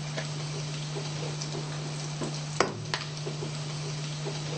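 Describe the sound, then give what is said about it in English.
Sizzling in a hot pan during stir-frying: a steady, even hiss continues throughout over a low constant hum, broken by one sharp clatter near the middle. “When you hear the sizzling sound, that means okay. Now we're going to put in the mix.”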